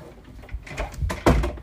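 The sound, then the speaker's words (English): A door being shut: faint rustling and light knocks build up to one sharp, loud thud near the end, followed by a short fading tail. “Wait, do I shut this door?”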